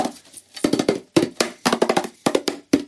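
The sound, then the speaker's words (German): Clicks and knocks of a sealed metal tea tin printed with the Union Jack being handled: a series of sharp, fairly loud taps in uneven clusters with short pauses between, and no talk. “schöne Blechdose mit dem Union Jack drauf und drinnen befindet sich Tee. Muss ich jetzt mal aufmachen. Die ist verschweißt.”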